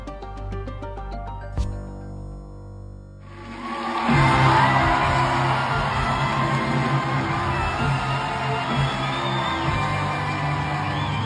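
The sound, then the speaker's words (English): Rapturous applause and whoops from a musical theatre audience for an actress starring in Evita. A quieter tonal opening gives way to a loud swell of clapping and cheering that holds steady to the end. “That's the sound of rapturous applause for an actress who starred in one of the most demanding productions in musical theatre, with little over 4 hours to prepare.”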